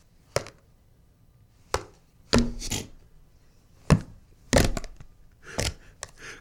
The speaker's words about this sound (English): attacking cream cheese lid number 7. With a giant thumbtack.